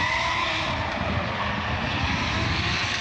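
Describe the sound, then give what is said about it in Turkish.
Modified cars racing and drifting on a track make a continuous, even roar of engines and tire noise, with no distinct pass-bys standing out from the steady wash of sound. “Modifiyeli araçların da yer aldığı etkinlikte pistte ortaya çıkan görüntüler izleyenlere görsel şölen sundu.”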